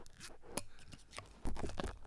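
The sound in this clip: Foil being cut off a wine bottle: faint, crinkly crunches and snips in several quick bursts, with a louder crackling stretch toward the end.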